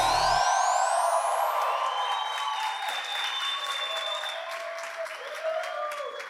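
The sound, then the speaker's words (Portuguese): Audience applause at a church ministry gathering, a loud burst of many clapping hands that starts strong and tapers slightly while staying dense throughout. “Vamos lá, ministério. Mais palmas, vai.”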